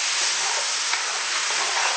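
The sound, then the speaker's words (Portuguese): Food fries in a pan left on residual heat after the flame is turned off, giving a steady, even sizzle and crackle heard on its own with no talking. “Vou desligar o fogo e deixar ele terminar fritando só no calor da frigideira.”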